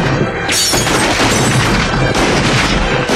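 Gunshots from a gun being fired: a few loud, sharp blasts cutting through dense, continuous crashing noise that stays loud throughout.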